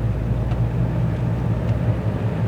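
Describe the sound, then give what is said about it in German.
Driving noise from a Toyota Auris about ten years old, a steady low engine and road rumble that stays even in loudness throughout, with no voices. “Wenn sich die Fahrgeräusche ein bisschen komisch anhören, äh, ich fahre zum ersten Mal mit so einem Ding.”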